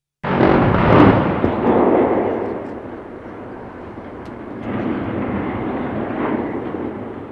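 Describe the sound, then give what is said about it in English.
Demolition explosives sever the base of a 1,001-foot smokestack with a sudden loud blast. A long, broad rumbling roar follows, easing off, then swells again before slowly fading. “That's the sound of explosives severing the base of the 42nd tallest chimney in the world.”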